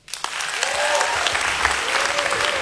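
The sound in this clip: An audience at a live music show applauds to welcome a performer to the stage. The clapping swells quickly into a dense, sustained ovation with a few whistles rising above it.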